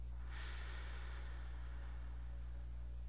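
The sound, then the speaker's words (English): A single deep breath taken during a guided relaxation exercise: a soft, airy rush that begins abruptly and slowly fades away over a steady low electrical hum, faint and without any voices. “So I want everybody to just take a couple of deep breaths in. And exhale. And take another deep breath in.”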